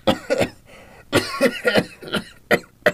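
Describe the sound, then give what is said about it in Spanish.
A person with a cough and a cold coughs repeatedly, in short, rough, moderately loud bursts that come in irregular clusters with brief pauses between them. “Me agarró una tos y un catarro después del aguacero de anoche.”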